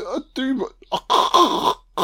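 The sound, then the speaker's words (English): A man clearing his throat to bring up phlegm, with harsh, raspy hawking bursts separated by short gaps and mixed with throaty, speech-like vocal sounds. “I do apologize, son. I'm just removing some fucking phlegm.”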